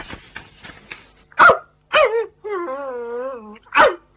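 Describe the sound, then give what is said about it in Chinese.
A dog barks and whines: quick faint yips at first, then three sharp, loud barks with a long, wavering whine between the second and third. “吠两下打个招呼先嘛”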